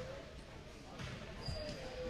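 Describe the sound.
A player bounces a basketball a few times before a free throw during a basketball game, soft thuds over a steady murmur of crowd voices.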